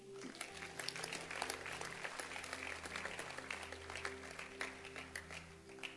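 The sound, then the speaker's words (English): An audience clapping hands for a young woman, a quiet, steady patter of many claps over a low continuous hum. “Clap your hands for her.”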